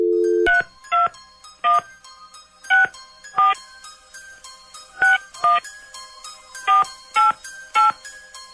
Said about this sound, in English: Dialing at random.